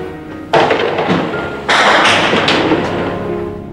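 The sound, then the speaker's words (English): Gunshots from a recorded real-life shootout at the University of Texas tower: two sudden loud blasts, the second about a second after the first, each followed by a sustained roar of noisy, distorted recording. “Here is the audio from that shootout.”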